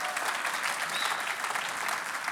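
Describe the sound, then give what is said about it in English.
Applause from a church audience during a worship service, a thick, continuous wash of many hands clapping together, steady and moderately loud throughout. “Come on, let's give Him a huge round of applause.”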